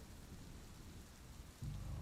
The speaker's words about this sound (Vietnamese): Xóm nghèo huyện Long Xuyên, trong đêm mưa tầm tã, sấm chớp ị đụng